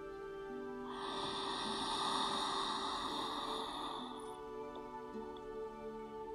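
A slow inhalation during a guided breathing exercise: a soft, airy hiss swells for about three seconds, then fades into quiet. No voices are heard.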